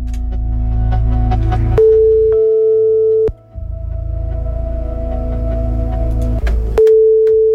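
Electronic telephone line tones sound while a call is placed. Steady, continuous pitched tones step up or change at a few points, with a brief break near the middle.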